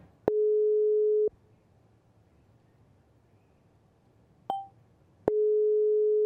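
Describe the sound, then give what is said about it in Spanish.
Telephone busy signal on an outgoing call: two long, steady, mid-pitched electronic tones of about a second each, separated by a quiet gap broken by a brief higher beep. “a devolver la llamada que tenía la señora Luz Victoria que me estaba llamando. Vamos a ver si nos contesta.”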